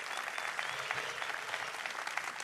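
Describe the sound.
Church audience applauding to welcome two guests, a soft, steady wash of clapping that holds evenly from start to finish.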